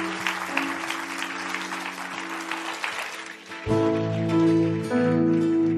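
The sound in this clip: A church audience applauds in a dense, steady patter. Partway through, sustained tonal music enters and takes over at a slightly louder level.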